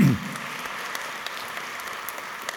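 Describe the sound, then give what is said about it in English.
Congregation clapping during a church sermon in East Tennessee: faint, sustained scattered applause following a brief low thump at the very start, steady and quiet to the end. “clap whenever you can find a place, because it's going to be hard”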